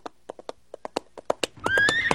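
A ridden horse's hooves clop in a quick, uneven run of about ten sharp beats, then a loud, drawn-out whinny rises in pitch while hoofbeats carry on beneath it.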